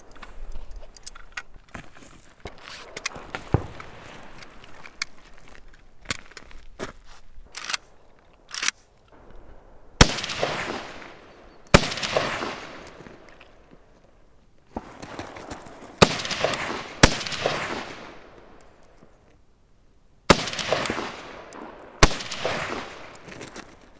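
Gunshots crack at a shooting range, many sharp reports in irregular bursts, some loud single shots trailing off in long ringing decays, with short quiet gaps between strings of fire.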